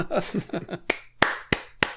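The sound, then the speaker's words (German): Four sharp, evenly spaced hand claps ring out right after a brief stretch of speech, each a loud crisp crack with a short tail. “Und jetzt möchte ich Applaus haben.”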